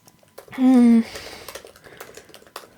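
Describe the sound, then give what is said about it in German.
Typing on a computer keyboard: a brief humming voiced sound comes first, then scattered light key clicks tap out an irregular rhythm at a fairly quiet level. “Ich muss mal kurz was schreiben. Ist auch mal schön, wenn ich nebenbei schreibe.”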